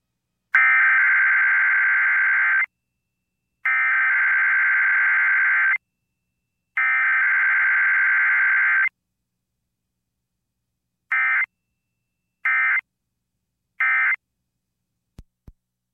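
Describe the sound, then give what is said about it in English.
An emergency alert system test tone over the radio: three long, harsh buzzing data bursts of about two seconds each, then a pause and three short bursts in quick succession, followed by two faint clicks. “What you just heard was a test from the emergency alert system.”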